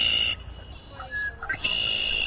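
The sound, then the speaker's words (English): A red-winged blackbird call played back from an iPod in a trail clearing: a few high, buzzy, trilling bursts separated by short gaps, with a brief clear whistled note in between, heard alone. “That was a red-winged blackbird.”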